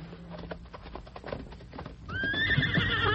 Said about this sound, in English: Whoa now. Whoa, fella. Whoa. Just want to look you over. Not been ridden for several hours, at least. Why keep saddle on all night?